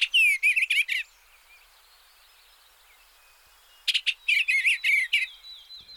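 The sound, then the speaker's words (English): Eastern bluebird song: two short bursts of soft, warbling high chirps and twitters separated by a quiet gap of nearly three seconds, fairly faint over a light background hiss. “And we have the sound of an eastern bluebird. Here's a listen.”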